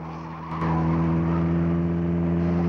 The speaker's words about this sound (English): Francis speeds up on the narrow road and veers round a parked car, then a bend.